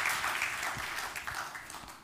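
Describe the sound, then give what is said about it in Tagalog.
A church audience applauds at a Resurrection Sunday service, a dense, steady wash of clapping that carries on throughout. “palakpakan mo nga si Lord.”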